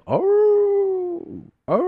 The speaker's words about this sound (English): So they're walking down this dirt road and they sit hearing this dog.